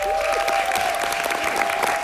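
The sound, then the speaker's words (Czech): Theatre audience in Kraków applauding at the end of a Polish premiere at the Juliusz Słowacki Theatre, a steady, dense clapping that holds at an even level throughout. “I diváci v Krakově na konci představení dlouho tleskali.”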